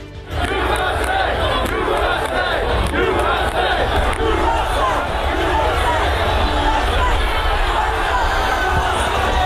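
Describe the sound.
A dense crowd shouts and chants during the riot at the US Capitol in Washington. Many voices merge into a loud, sustained roar that barely changes from start to finish.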